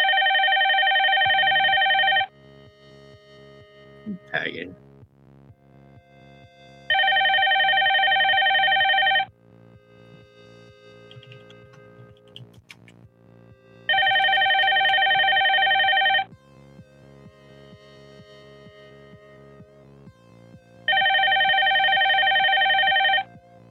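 Telephone ringing with an incoming call: four loud, evenly spaced bursts of a bright, electronic ring, each about two seconds long, separated by quieter stretches of low tonal sound.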